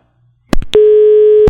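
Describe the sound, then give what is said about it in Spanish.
Phone line tone after a caller's call dropped on a radio phone-in: a couple of sharp clicks, then one steady mid-pitched tone held for under a second, cut off by another click. “se ha caído la llamada del oyente.”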